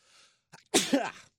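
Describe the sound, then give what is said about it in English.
A single sneeze breaks out after a brief faint intake of breath, sharp and loud, with no talk around it. “Excuse me, I was fighting that. Didn't turn my mic off, so everyone say bless you.”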